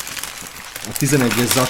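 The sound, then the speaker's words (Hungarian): Plastic crinkling as a numbered parts bag for a building set is torn open, a rustling, papery texture that carries on while a voice talks over it in the second half. “ezt a 11-es zacskót ezt kibontom. Ezt a 11-es zacskót még kibontom, és szerintem ezt még mindenképpen megépítem”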